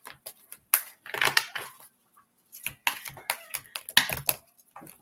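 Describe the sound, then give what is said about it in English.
Angel oracle cards being shuffled and one pulled from a deck, heard as crisp, sharp clicks and flicks in irregular clusters separated by short pauses. “Now I will pull an angel card for you.”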